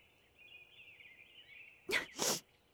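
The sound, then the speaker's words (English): A sneeze blamed on fairy dust rather than a cold: one sharp, loud two-part burst near the end, preceded by a faint, steady high hiss. “sneeze. No, I don't have a cold. My fairy dust is what's setting me off.”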